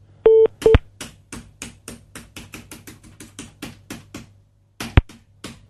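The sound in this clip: Dialing tones from a telephone system: two short keypad tones at the start and one near the end, with a steady run of many dry clicks between them.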